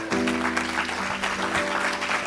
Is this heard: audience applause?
yes